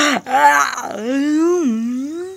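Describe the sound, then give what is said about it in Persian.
A voice imitates a long, drawn-out yawn for Gilbert the cat curling up for a nap, heard as a single groaning, moaning tone with a wavering pitch that lasts about two seconds. “بعدم خمیازه ای کشید و خوابش برد.”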